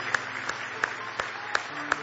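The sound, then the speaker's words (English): A church audience claps hands in praise, making six evenly spaced claps in a steady rhythm. The claps are fairly faint. “Give the Lord a good hand clap of praise.”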